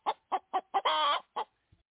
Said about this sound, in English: As you know, we sit Henrietta down here. She's our head chicken over at the coop, and we talk prep talk here with Henrietta.